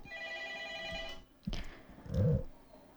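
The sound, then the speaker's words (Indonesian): A phone rings with an incoming WhatsApp call, giving a steady, multi-tone electronic ringtone for about a second before it cuts off. A short knock and a louder low thump follow. “ini ada yang nelpon nih ya”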